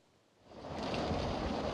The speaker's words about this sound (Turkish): Adana'da kısa süreli bir sağanak vardı ama sokaklar göle döndü, binaların giriş katlarını su bastı.